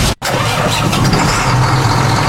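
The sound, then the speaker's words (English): Heavy truck and tractor engines roaring at a dirt truck and tractor pull, a loud, dense, continuous rumble that cuts out for a split second at the start, then holds steady to the end. “Feel the ground shake as the biggest trucks and toughest tractors battle it out in the dirt.”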